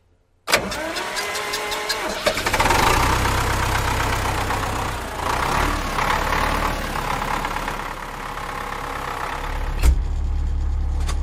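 A vehicle engine turned over on the starter, whirring briefly before catching and running loudly and steadily with a rough, throbbing rumble.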